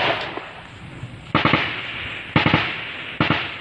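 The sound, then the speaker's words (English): Heavy machine gun fire from military troops in a valley in Myanmar's northern mountains: three short bursts of rapid, sharp cracks that stand out loudly against a steady, rushing background. “The troops fire back wildly. They've got a superior weapon, a heavy machine gun, but don't seem to know where to aim it.”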